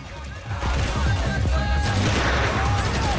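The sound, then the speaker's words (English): Gunfire from soldiers shooting down from a rooftop at militia storming an embassy compound. A loud, dense, continuous barrage follows a brief quieter opening and keeps up to the end. “Sam and the other soldiers continue firing down from the roof.”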